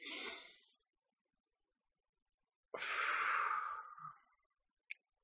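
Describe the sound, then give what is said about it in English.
Soft breath exhaled during a guided breathing exercise: a short breath at the start, then after a pause a longer, steady exhale that fades out, with a tiny click at the end. “And exhale again.”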